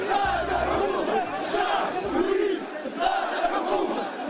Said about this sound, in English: Sound, of course, from the streets of Tunisia, a story we've been covering all week, as well as demonstrations around the Arab world in Cairo and even this morning we learn in Yemen.